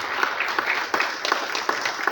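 Applause rises from an audience at an official ceremony thanking staff. The clapping is a dense, continuous patter with no pause, heard alone with no talk.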